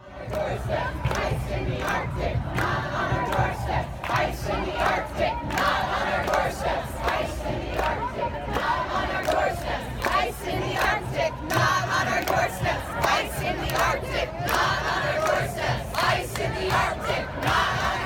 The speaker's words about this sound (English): Here are the sounds of protesters chanting, "Not on our doorsteps, ICE in the Arctic."